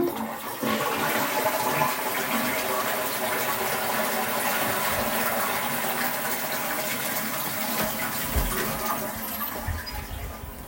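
A toilet is flushed, with a loud, continuous rush of gushing water that holds steady for about ten seconds and then begins to ease off.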